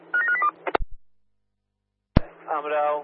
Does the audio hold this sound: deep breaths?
no